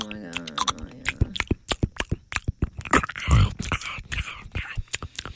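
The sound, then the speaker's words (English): Loud, crunchy chewing of a peanut butter and banana sandwich: many sharp, moist bites and smacks in a quick, uneven rhythm, with a brief denser crunching burst near the middle. “This peanut butter and banana sandwich is delicious. That's so wrong, like on so many levels. I cannot be the only one that just like your neck goes stiff when you hear that.”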